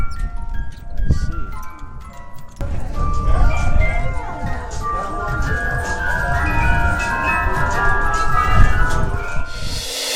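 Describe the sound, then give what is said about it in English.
Twenty-four small hand-crank music boxes play all at once on a metal cone that amplifies them. After a sparse start, a thick, clashing wash of tinkling metallic tones swells and holds steady, with a few brief spoken words. “It has 24 little hand-crank music boxes on it that you can get from Hurdy-Gurdy or any kind of, like, toy shop, whatever, and it serves as an amplifier for them.”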